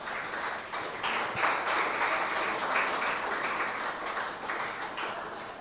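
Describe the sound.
A church audience clapping their hands together, a faint, steady wash of many overlapping claps that holds at an even level without clear breaks.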